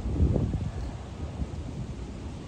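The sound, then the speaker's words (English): Wind blows through trees as a soft, steady rush with faint rustling, a little stronger in the first half-second and then even and unbroken. “listen to the wind through the trees, planes in the air,”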